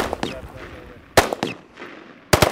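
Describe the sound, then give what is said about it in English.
Gunfire from Marines at a humid target practice range in North Carolina: several sharp, loud cracks arriving in bursts, with a cluster near the middle and another tight group at the end, separated by quieter gaps. “You may begin firing from the standing or the kneeling on your own.”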